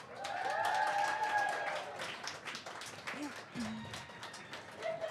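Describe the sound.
Audience applause greeting guests as they arrive on stage, a sustained dense clatter of clapping with voices speaking over it.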